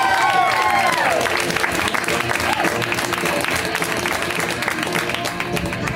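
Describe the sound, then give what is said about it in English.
Audience applause welcoming a comedian onto a stand-up stage: dense, steady clapping that holds loud throughout, with some crowd noise mixed in. “Welcome to stage, my friend and yours, the amazing Megan Gailey. Give it up for Megan.”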